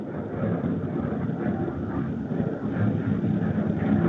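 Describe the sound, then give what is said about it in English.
Deep roar of an aircraft taking off at Colorado Springs Airport, a steady, dense low rumble that holds without a break and swells slightly toward the end, with no voices over it. “Sounds like you might have a takeoff going right now.”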